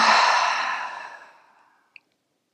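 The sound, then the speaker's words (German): A long, deep exhale through the mouth during a breathing relaxation exercise: one breathy whoosh that starts loud and fades steadily over nearly two seconds, then a brief faint click. “Dann atme einmal ganz tief über die Nase in deine Bauchdecke ein, sodass die Bauchdecke sich hebt. Und beim Ausatmen durch den Mund lässt du alles los.”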